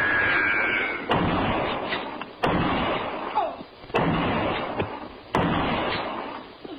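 Rifle gunfire in a radio drama: four sharp, loud shots ring out at roughly even intervals, each with a short decaying tail.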